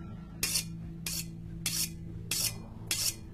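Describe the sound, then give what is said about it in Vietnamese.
A knife is sharpened in a basement: five evenly spaced, hissing scrapes of the blade, faint over a low, steady hum. “Tiếng mài dao vang lên trong căn tầng hầm ghê rợn.”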